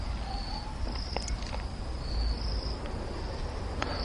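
Crickets chirp in a steady, high-pitched trill with occasional brighter pulses, set over a constant low rumble of outdoor noise. The layer stays moderately quiet throughout, with no talking.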